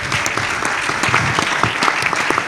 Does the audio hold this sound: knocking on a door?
no